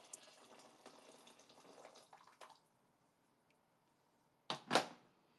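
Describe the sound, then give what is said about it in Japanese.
Hot water is poured from a freshly boiled kettle, a faint, steady stream that stops abruptly. A stretch of near silence follows, then a brief, louder knock near the end. “あ、お湯沸いた。お湯入れて、”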